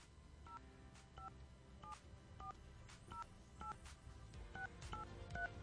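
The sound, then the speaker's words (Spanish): Touch-tone telephone dialing of a number to reach a contest winner: nine short two-note beeps, each about half a second apart, faint over a hissy background. “Ahí estamos marcando, perfecto.”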